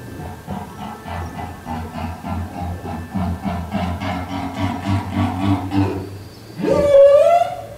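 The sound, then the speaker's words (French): Whale song from Madagascar: a long phrase of low, harmonic moaning with pulsed tonal units, ending in a sharp, loud cry that sweeps upward in pitch. “Écoutez bien, voici le chant d'une baleine malgache.”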